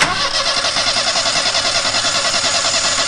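A three-bladed propeller engine starts up on a trial run after repairs, its blades out of alignment: a loud, continuous engine roar with a rapid, steady throbbing pulse.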